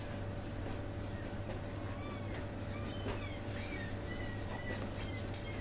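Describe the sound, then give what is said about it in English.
Handwriting during a lecture on logical notation, heard as faint, irregular scratchy strokes over a steady low hum. “Let me write this more.”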